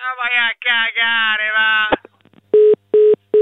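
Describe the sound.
A telephone number is dialed on a touch-tone phone: three short, even beeps of the same pitch in quick succession, following a stretch of talking.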